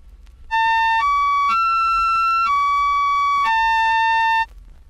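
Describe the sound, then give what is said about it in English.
Five steady electronic tones rich in overtones play in succession, each about half a second to a second long. The pitch steps upward over the first notes and then back down to the starting note. “Now here they are again, this time with overtones.”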